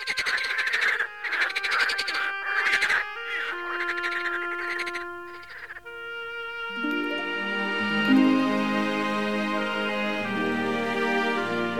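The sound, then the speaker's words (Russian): Frogs croaking on an evening: a few loud, rasping croaks in rhythmic bursts fill the first half, with no talking. “Даже лягушки в тот вечер квакали веселее.”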